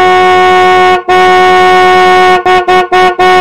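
Taxi horn honking on a deserted, out-of-the-way road: two long, loud, brassy blasts followed by four short toots in quick succession, with no other sound.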